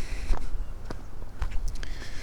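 Footsteps of a person walking outdoors: a few soft, evenly paced steps over a steady low rumble, with no talking.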